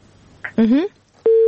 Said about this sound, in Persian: متاسفانه که تماس خواهر ما قطع شد